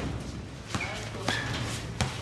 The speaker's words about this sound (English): Outside in a covered area that usually houses the band on July 4th, it's empty and some boys are playing basketball.